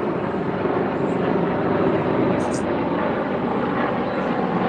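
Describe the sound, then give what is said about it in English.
Airplanes and helicopters fly overhead, making a dense, steady roar that fills the whole stretch with no clear rise or fall and no distinct rotor beat. “All of a sudden we have some activity, airplanes and fire trucks, helicopters.”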